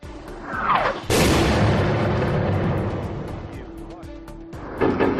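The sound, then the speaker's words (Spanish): Shelling and explosions along humanitarian corridors in Ukraine: a sudden heavy blast that booms and rumbles on in a long decay, followed by another sharp burst near the end. “Putin siguió bombardeando los corredores humanitarios por donde anunció que no lo iba a hacer. Por el lugar donde salían los civiles, este era el sonido que se escuchaba.”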